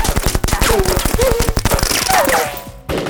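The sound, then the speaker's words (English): Gunfire from several guns: loud, rapid repeating bangs come in dense bursts and keep going almost without a break, then drop out briefly near the end. “The gunfire kept coming, as if there were a small war going on in his living room.”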